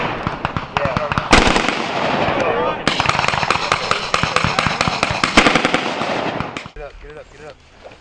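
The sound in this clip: Rapid gunfire rattles during a combined arms military live fire exercise, with a maneuver company advancing on objectives. Many loud, dense bursts follow one another in quick succession, easing off near the end.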